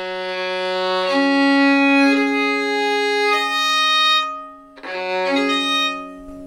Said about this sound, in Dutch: Ja, ik heb hier mijn gewone viool. Die is inderdaad gestemd in kwint en die klinkt zo.